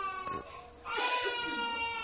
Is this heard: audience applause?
no